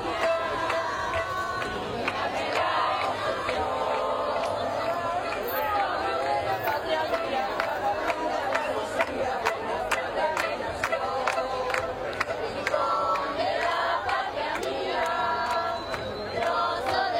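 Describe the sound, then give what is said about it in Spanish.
A crowd at the Gibraltar border crossing chants its anthem, a long, fairly faint stretch of massed voices and chatter with many sharp clicks or claps scattered over it. “desde el lado de la línea se escuchaba a la gente corear su himno”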